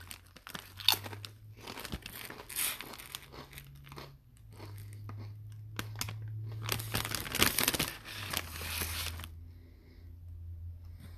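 Lay's dill pickle potato chips crunch and get chewed during a taste test. Many crisp bites and chews come in irregular bursts, fairly faint, with no talking.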